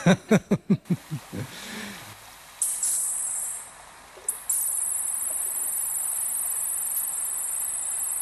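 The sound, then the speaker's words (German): The torpedo-shaped autonomous underwater vehicle Abyss on a deep-sea mission gives a burst of rapid clicks that quickly fade. A thin, high-pitched whine then sets in, breaks off briefly, and resumes as a steady tone. “Dieses Geräusch entsteht, wenn das ferngesteuerte autonome Unterwasserfahrzeug Abyss auf Tiefseemission ist.”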